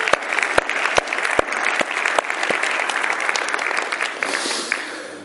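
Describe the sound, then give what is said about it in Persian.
Congregation applauding for God during a church sermon: a dense, sustained wash of many hands clapping, steady throughout with a few sharper individual claps standing out. “چند نفر میتونن دست بزنن برای خداوند؟”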